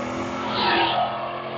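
A Camaro engine making about 390 wheel horsepower roars steadily on a dyno, a loud sustained drone that swells briefly in the middle.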